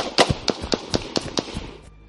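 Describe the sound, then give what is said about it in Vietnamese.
Several sharp gunshots ring out in a quick, slightly uneven series of loud, crisp cracks, each one short and punchy, before the sound cuts off abruptly. “Sau đó, vài tiếng súng chát chúa vang lên.”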